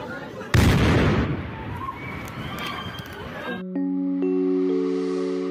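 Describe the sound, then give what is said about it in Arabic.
A terrorist bomb goes off on a busy Istanbul street: one sudden, loud blast followed by a long crackling, rumbling tail that slowly fades, after which sustained musical tones take over. “تفجير إرهابي استهدف عروس اسطنبول، ارتقى بسببه 6 شهداء.”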